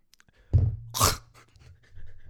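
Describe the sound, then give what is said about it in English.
A congested, sick person snorts back phlegm, one strong wet nasal inhale turning into a harsh, hissing snort, then fainter breathy sniffles. “I just inhaled a loogie. Sorry about that. Is that gross?”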